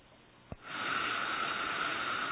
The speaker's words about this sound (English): How you do is like you block this left nostril. Inhale.